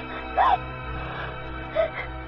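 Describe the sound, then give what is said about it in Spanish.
A young girl crying in a 1977 animated film: two brief, high, wavering whimpering sobs separated by a quiet gap, over a low steady background. “¿Qué Penny? Penny, querida, no llores.”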